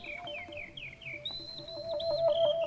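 A bird sings in flight with a run of short, high, downward-sliding whistled notes, then longer sustained whistles that waver slightly, clear above a soft background.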